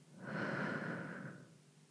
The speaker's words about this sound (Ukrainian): Вдих. Видих. Коли вона дихає так глибоко,